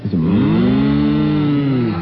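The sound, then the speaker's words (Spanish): A cow moo from a children's talking toy: one long, loud, steady lowing call lasting nearly two seconds, with a slight dip in pitch at the start. “usted aprieta, ven un dibujito de una vaquita, el nene aprieta y dice... Esto es una vaca.”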